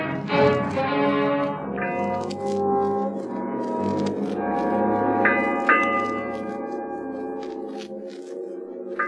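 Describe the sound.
A ship's bell striking eight bells: a few clear, ringing strikes with lingering tones sound over a dense, sustained tonal background.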